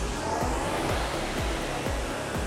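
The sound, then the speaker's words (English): A rowing machine flywheel spins with a steady fan-like rush of air. Low whooshes pulse through it at a regular pace, about twice a second. “relaxed arms as you pick up the flywheel by driving back.”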